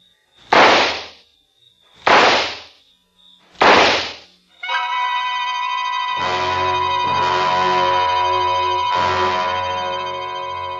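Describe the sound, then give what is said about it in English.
Handgun shots ring out as three sharp, loud bangs spaced evenly about a second and a half apart. A sustained, swelling musical chord follows and holds to the end. “Then I opened my purse, took out the gun, aimed very carefully at a spot just in the center of his left shoulder blade, and pulled the trigger four times.”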